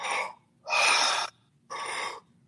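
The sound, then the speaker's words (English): Three deep, loud breaths drawn through the mouth in conscious, connected circular breathing, each a rushing airy burst lasting about half a second, separated by short quiet pauses. “that circular, deep breath, which allows you to tap into states that you would never normally go into.”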